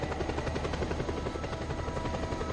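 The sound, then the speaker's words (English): A huge helicopter arriving in a video game, its rotor giving a steady, rapid, rhythmic thumping over a dense engine roar that stays constant throughout. “So basically, he comes in this huge helicopter.”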